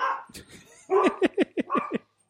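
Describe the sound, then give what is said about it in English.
Dogs barking in a quick run of several sharp, high barks or yips, each short and dropping slightly in pitch, coming after a softer, murmuring stretch. “It's only, the dogs are going. The dogs are going.”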